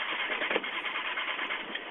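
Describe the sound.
A flooded car engine cranks without starting, giving a steady, harsh whirring and grinding noise that runs continuously for about two seconds with small uneven surges and never catches.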